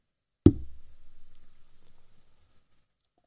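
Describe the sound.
A single dull knock on a table during a beer toast, a sharp low thump followed by a fading, faintly rippling tail that dies away over about two seconds, then near silence.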